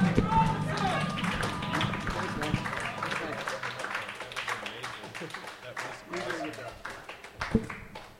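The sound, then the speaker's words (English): Audience applause and clapping for a performer at a live comedy show in Baltimore: many sharp, dense hand claps that fade gradually toward the end, with voices underneath. “Ladies and gentlemen, please put your hands together for the fucking awesome Adam Robinson, everybody.”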